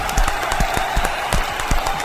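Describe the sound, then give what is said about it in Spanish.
Clapping from a class after a child reads a fable aloud: a quiet, scattered patter of hands that holds steady throughout, with no talking. “¡Aplausos!”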